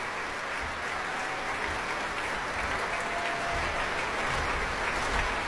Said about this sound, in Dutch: En het bromgeklap voor de encore, voor de toegift.